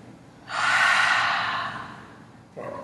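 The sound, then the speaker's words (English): A deep breath is exhaled through the mouth during a guided breathing exercise. One long, loud, breathy rush lasts about two seconds and slowly fades, then a shorter breath begins at the very end. “Two more times, inhale deeply. Through the mouth let it go. And last time, inhale, let it go.”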